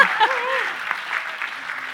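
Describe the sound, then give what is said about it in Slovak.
Audience applause during a talk on teaching, a brief burst of clapping with a short vocal sound over the start. “To si zaslúži potlesk samoho sebe.”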